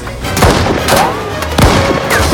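Gunshot during a mine-cart chase on rickety tracks above a lava lake, heard as a few sharp, loud bursts over a busy, rumbling background of sound effects.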